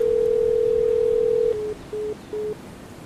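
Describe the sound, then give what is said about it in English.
A telephone tone after a speed dial that goes unanswered: a steady, mid-pitched tone holds for about a second and a half, then breaks into three short, evenly spaced beeps. “With my left hand, I speed dial Dave. No response.”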